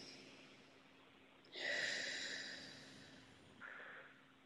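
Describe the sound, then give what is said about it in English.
A deep breath, one long airy rush of breath that swells and slowly fades, followed by a second, shorter breath. It is quiet and has no voices. “Take a deep breath.”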